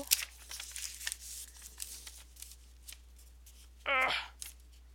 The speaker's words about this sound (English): I can get the bloody thing open. There we go.